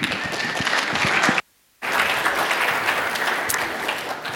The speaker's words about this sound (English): So, would you uh, put your hands together and give him a warm welcome as he comes to the stage?